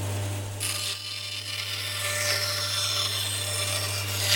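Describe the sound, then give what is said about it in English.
Wood being cut into shapes for Christmas decorations in a shed, a steady rasping, grinding cutting noise that runs throughout over a constant low hum, fairly quiet with no voices. “cutting up pieces of wood into shapes that would make Christmas decorations”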